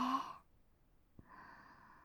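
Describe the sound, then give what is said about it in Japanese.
Deep breathing during a guided inhale-and-exhale exercise: two soft, airy breaths separated by a short silence, both very faint. “吐いて、もう一回、吸って、”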